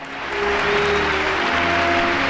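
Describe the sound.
Applause from the audience at a school ceremony: dense, even clapping that swells over the first half second, then holds loud and steady to the end.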